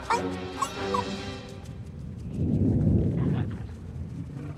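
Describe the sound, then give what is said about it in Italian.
Thunder rumbles from underground: a deep low rumble swells in the second half and holds for about a second before easing off, with no talk. “Ma è evidente che era un tuono. Un tuono da sotto terra.”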